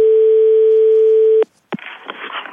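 Steady telephone dial tone from a badly hung-up receiver, a loud single unwavering pitch that cuts off abruptly, followed by a short pause, a click and low rustling handling noise.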